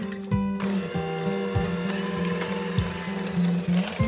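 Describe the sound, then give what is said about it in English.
An electric mixer beats a filling of sour cream, half and half, softened butter, salt and pepper until fluffy. It makes a steady mechanical whir with a regular, repeating rattling clunk. “I start with some tangy sour cream, obviously, 1/2 and 1/2, some softened butter, and a little salt and pepper. And I'll beat this until it's fluffy.”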